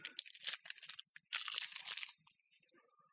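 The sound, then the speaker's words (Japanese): Crisp crunching and crinkling as someone eats chocolate: a dense run of sharp bites and rustles, a brief pause near the middle, then a loud burst that thins out toward the end, with no talking. “チョコレートを食べます。”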